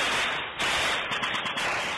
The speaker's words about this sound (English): This is an al-Shabaab hit song, and it begins with deafening gunfire.